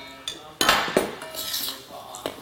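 Spoon stirring a mixture of salt and yeast flakes in a bowl, giving a few sharp clinks and soft scraping sounds against the dish, fairly faint and irregular.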